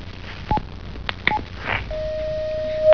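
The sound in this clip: Telephone tones of an incoming call: a few short, sharp beeps followed by one long, steady, pure tone that holds for about a second before cutting off.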